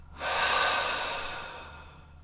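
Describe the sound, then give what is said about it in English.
Deep breathing during a guided relaxation exercise with muscle tensing and an open-mouth exhale: one long, airy rush of breath swells quickly and tapers off over about two seconds, heard alone over a faint low hum. “Take a big breath in, double inhale. Hold the breath, squeeze up the muscles. Open the mouth, double exhale.”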